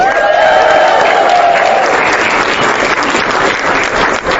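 A crowd applauding and cheering at a political campaign event after a call to cheer for the staff, volunteers and supporters. Loud, dense clapping mixed with cheers continues steadily through the whole clip.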